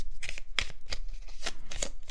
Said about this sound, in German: Also ich habe noch keine Ahnung, was diese Fragen sein werden. Ich werde jetzt einfach einmal mischen.